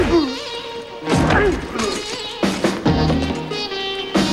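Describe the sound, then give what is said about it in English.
A glass door smashes during a fist fight, heard as a few heavy, noisy crashes and thumps that come in separate bursts, with scuffling between them. “Jack runs after him and swings, but Cyrus ducks. Jack flies through a glass door. As he tries to get up, Cyrus punches him.”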